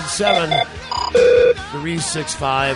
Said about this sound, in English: Here's the first call of a brand new show. Hello, Don and Mike Show.